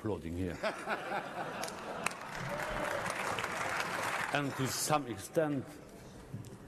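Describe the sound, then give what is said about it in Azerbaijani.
Applause rings out in a European Parliament session. A sustained burst of clapping swells between stretches of speech, with voices heard before and after it. “Sizi burada sonuncu dəfə də alqışlayırlar”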